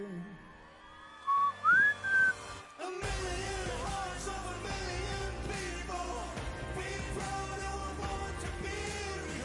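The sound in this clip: Whistling at the end of a song: three short whistled notes, one sliding upward, over quiet backing. Loud full-band music then starts and continues steadily.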